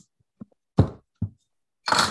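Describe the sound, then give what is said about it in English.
A bottle of historical Scottish-style beer is opened with a few small clicks and thumps, then a short, breathy hiss of released gas. “So this is a good like historical Scottish beer style. Should we crack it open”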